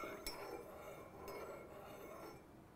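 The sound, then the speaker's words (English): Faint clinks of a spoon against a cup as honey is stirred into tea. A few light, separate ticks sit over a steady low hiss. “Now I'm gonna add some honey, because honey is really helpful in this type of situation. It helps soothe the throat and everything. So I wouldn't be afraid of honey. You can just stir it in.”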